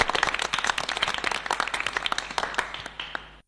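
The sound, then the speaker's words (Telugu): Audience applause for schoolchildren performing songs, poems and skits at a children's program: many brisk, overlapping hand claps in a quick uneven patter, holding steady before thinning and stopping abruptly near the end. “మరి మన అందరం కలిసి ఒకసారి అభినందించండి చప్పట్ల ద్వారా.”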